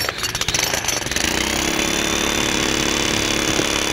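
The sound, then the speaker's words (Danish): Pneumatic jackhammer pounding near a balcony, a loud, continuous, rapid metallic rattle that runs steadily through the whole stretch without pause or voices. “Det er sådan en lufthammer.”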